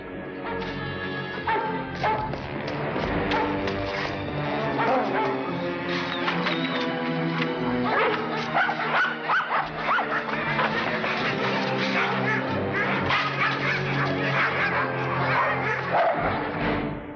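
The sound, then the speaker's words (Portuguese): Several dogs that are being teased bark and yelp repeatedly and loudly throughout, with dense overlapping barks over a busy layer of other noise. “Eu não gosto quando você provoca os cachorros.”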